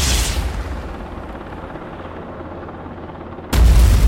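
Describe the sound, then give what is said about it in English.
A helicopter explodes into a fireball: a loud blast opens into a long, low, rumbling roar that holds steady, then a second sharp, heavy boom bursts in near the end. “The helicopter exploded into a huge fireball.”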